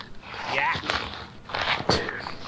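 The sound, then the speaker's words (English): Rustling and tearing come from a giant parcel being opened. Several rough bursts of paper and packaging noise rise and fall at moderate loudness. “I'm opening a giant Nick Caesar package.”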